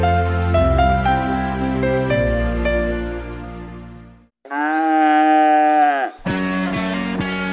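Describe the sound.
Cows give a few long, drawn-out moos, loud and tonal, with one notably wavering call in the middle.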